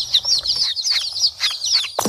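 Chickens clucking and chirping in quick succession, many sharp, high-pitched calls tumbling over one another with no voices, ending on a louder abrupt note.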